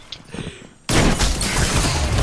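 Gunfire in a Destiny 2 or GTA 5 role-play game. After a quiet moment, a sudden loud barrage of rapid shots erupts and continues as a dense, unbroken wall of noise to the end.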